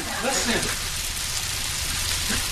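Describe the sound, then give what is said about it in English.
Caramelizing onions sizzle in a pan over an open fire, a soft, steady hiss with fine crackle throughout, while brief bits of talking come through now and then. “Listen. The sweet symphony of onions. That's what I'm doing. That is a symphony right there.”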